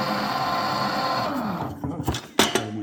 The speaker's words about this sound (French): 2 blancs d'œufs pour la glace royale et du sucre glace, c'est tout. J'ai mis 5 cuillères à soupe de sucre glace dans le blanc d'œuf. Et je fais mixer.